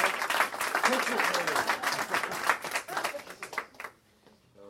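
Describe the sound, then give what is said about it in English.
A crowd applauds the people who set up an event twenty years ago, with busy overlapping claps and some voices mixed in, tapering off and dropping to near quiet shortly before the end. “So let's have a round of applause for people who put this together 20 years ago and made it great.”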